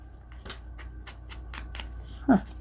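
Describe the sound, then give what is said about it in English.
Several soft, scratchy swipes of an ink sponge rubbed along the edges of square paper in a papercraft demonstration, coming in a quick, uneven rhythm over a faint steady hum. “I'm going to ink this up a bit so you can see it better.”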